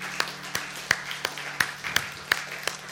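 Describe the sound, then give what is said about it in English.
A church audience claps hands in praise during a morning service: faint, sharp claps in a steady rhythm, roughly three per second. “Just give the Lord a hand clap of praise this morning”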